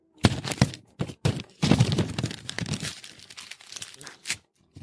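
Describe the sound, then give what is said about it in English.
Someone rips a package open with their teeth, making a run of rough tearing and crinkling bursts. The bursts are loudest early on, thin out, and end with one last short rip. “I had to rip it open, damn it, with my teeth.”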